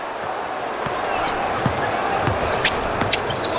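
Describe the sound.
A basketball dribbled during a game gives repeated soft bounces under steady crowd noise and a commentator talking.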